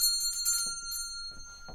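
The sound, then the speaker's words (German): A servant's bell rung by pulling the bell pull: a few quick, bright jingles over a steady high ring that lingers after the strokes stop. “Ziehen Sie die Klingel. Was? Ziehen Sie die Klingel, habe ich gesagt.”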